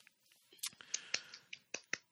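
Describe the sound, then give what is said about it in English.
A person giving themselves a clap, producing several quiet, irregularly spaced hand claps with sharp, crisp attacks and near silence between them. “I was giving myself a clap.”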